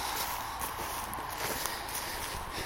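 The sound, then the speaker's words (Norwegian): Footsteps cross a dry bog as soft, repeated treads with a faint crunch, buried in a dense, constant hiss that stays even throughout. “Nå går vi over ei myr.”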